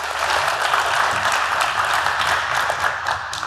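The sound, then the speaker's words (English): Audience claps gently for a talk, a soft, steady patter of many hands that stays even and continuous with a slight easing near the end. “I need you to start clapping, but very, very gently. Can you start clapping very gently? Yeah, and now just bring it up a bit more.”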